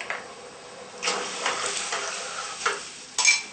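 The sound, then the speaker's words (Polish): Cornstarch is stirred into soy milk in a pot on the heat, making soft scraping swishes. A few louder strokes rise from a faint hiss, and a sharper knock comes near the end. “Teraz mieszamy, żeby uzyskać jednolitą masę. Przez chwilę musimy gotować i mieszać.”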